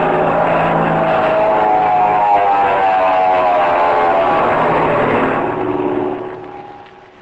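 Aircraft engine roar from a plane with silver wings and a blue body diving in to land, a loud steady droning hum with a buzzing tone that fades away near the end.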